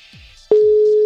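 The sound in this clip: Phone ringing tone on an outgoing voice call: after a brief stretch of faint, quiet sounds, a single steady mid-pitched tone starts abruptly halfway through and holds loud and unbroken to the end.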